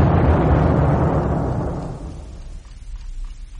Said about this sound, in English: That was a bomb.